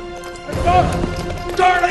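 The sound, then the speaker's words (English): A horse runs off, its hoofbeats clattering loudly through a busy, dense mix of other sounds, with two stronger surges of noise partway through. “Omri wakes up, blinking drowsily. Boone's horse runs off.”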